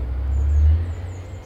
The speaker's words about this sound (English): that'll be the bucket lorry. Doing the rounds.